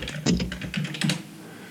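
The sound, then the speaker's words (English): Keystrokes on a computer keyboard as a search is typed into Google: a quick run of key taps in an irregular rhythm, moderately loud, with no talking. “Go to Google right now. Okay. Type in software bootcamp.”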